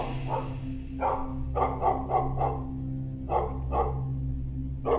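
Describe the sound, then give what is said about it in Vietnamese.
A black dog barks in a rapid series of sharp, mid-pitched barks, grouped in clusters with short pauses between them, over a low, steady background rumble. “đứng gầm gừ nhe răng sủa ông ổng về bên này.”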